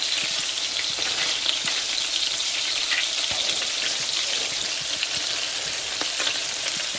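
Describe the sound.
Food fries in a pan while pieces are flipped onto another side, giving a steady, bright, hissing sizzle with scattered faint clicks throughout.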